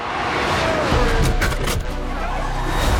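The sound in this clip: Formula 1 racing cars make a loud, continuous engine roar with a high whine and a brief surge partway through. A voice can be heard under the engine noise.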